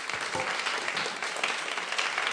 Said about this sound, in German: Danke, danke. Lasst uns bitte einen Applaus, wirklich.